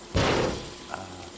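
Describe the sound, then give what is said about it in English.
A cage door slamming shut with one sharp, loud bang that decays over about half a second, followed by a single faint click as it locks. “The door cage has locked itself. I can't get out.”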